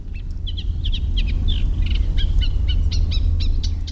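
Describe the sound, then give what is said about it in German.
A Eurasian reed warbler sings in the Wollmatinger Ried marsh: a rapid string of high, scratchy chirps and short trills repeating over a steady low rumble. “Und ich hoffe, dass man den jetzt gerade noch zu hören kriege, den Teichrohrsänger.”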